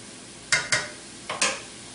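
Salsa mixture cooking in a pan over high heat: four quick scraping stir strokes, in two pairs, over a soft, quiet sizzle.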